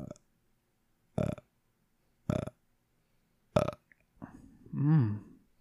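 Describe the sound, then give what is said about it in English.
A human burp: a long, voiced, wavering belch near the end, preceded by a few short, sharp bursts separated by silence. “Later in the video, burp.”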